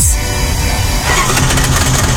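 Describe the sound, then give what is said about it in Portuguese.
A car engine makes a strange noise, a loud, steady and rough rumble that fills the whole clip without a break. “Seu carro faz um barulho estranho e você aumenta o volume do rádio para não ouvir?”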